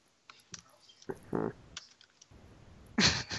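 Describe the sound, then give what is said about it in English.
Keyboard typing on a computer, heard as a few faint, scattered clicks that end in a louder, denser burst of keystrokes. “I just typed the word sure because I said it.”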